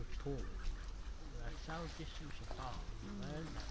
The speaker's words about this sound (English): ducks splashing about.